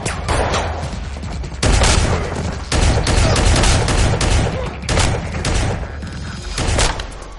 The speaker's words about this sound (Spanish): Coge la escopeta Benelli y abate a unos hombres.